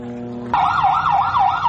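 An ambulance siren in Khan Younis, Gaza, after an attack cuts in abruptly over a low drone, its loud tone sweeping steadily up and down in a repeating wail.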